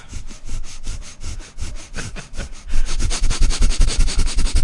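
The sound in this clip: A voice imitates sawing, the classic serruchazo, with rhythmic breathy rasping strokes that turn louder and quicker in the second half, each stroke a harsh push of breath.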